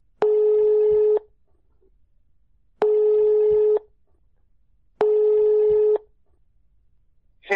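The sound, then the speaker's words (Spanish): A telephone call being placed: three long, steady buzzing line tones of equal length, evenly spaced with silent gaps between them. “como no vivimos cerca, me la ha contado a través de una llamada telefónica”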